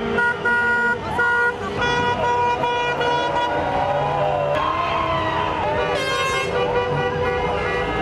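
Car horns honk on the street in a celebration of a German team's victory: many overlapping toots and sustained blares, dense and continuous against steady traffic noise.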